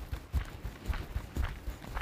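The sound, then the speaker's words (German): Footsteps of someone walking on tiptoes during a walking-technique exercise: a steady run of many soft, light thuds at a quick, even pace, fairly faint. “Fertig, auf geht's. Einfach auf den Zehenspitzen gehen.”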